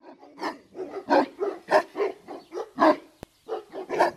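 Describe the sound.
A guard dog barking at a homestead: many loud, sharp barks in a rapid, uneven run with brief gaps, continuing to the end.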